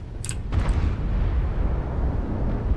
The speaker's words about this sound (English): I got their UAV down. Target destroyed.